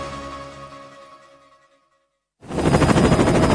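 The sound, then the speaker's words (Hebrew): A huge helicopter's rotor roar, loud and dense with rapid pulsing, bursts in abruptly after a stretch of music fades into silence. “וואו, איזה מסוק ענק, כמה מתנות.”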